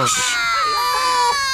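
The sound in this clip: A newborn baby cries just after birth with a loud, high, sustained wail that holds steady throughout.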